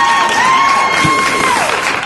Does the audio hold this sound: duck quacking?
no